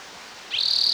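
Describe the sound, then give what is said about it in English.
A bird calling: a single high, shrill trill starts abruptly halfway through and holds steady and loud to the end, with only faint background hiss before it. “Bilingual bird.”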